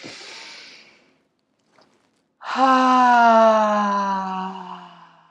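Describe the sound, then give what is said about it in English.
A deep breath taken during a guided group breathing exercise: a soft, airy inhale, a short pause, then a long voiced sighing exhale. Its steady hum slowly drops in pitch and fades. “Let's all just take a big deep breath in together.”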